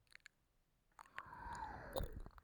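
Close ASMR mouth sounds of mouthing and nibbling an ear: soft, wet clicks and small smacks, very quiet, with a few sharp ticks early on and a denser, moist stretch later.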